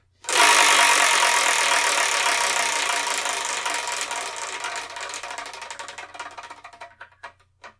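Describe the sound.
A numbered prize wheel spins, starting as a dense, loud clatter of rapid clicks that gradually thins and slows into separate ticks before it stops.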